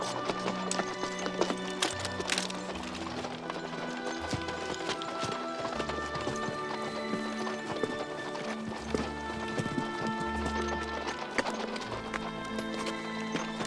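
Horses ridden by mujahideen riders clip-clop without pause, many faint, overlapping hoofbeats in an uneven rhythm.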